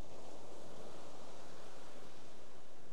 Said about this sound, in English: just receive the sound of the wave, the pause between, and then receive the next sound.